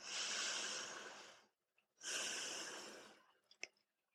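Two long, deep, airy breaths during a guided prayer, separated by a short pause and followed by a few faint soft sounds.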